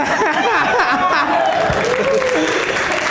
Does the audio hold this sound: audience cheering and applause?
yes